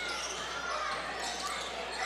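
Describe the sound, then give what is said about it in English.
Basketball dribbled on the court during a boys' high school game. Its bounces are blended into steady, loud crowd and gym noise, with no clear separate beats. “He's dribbling right to left.”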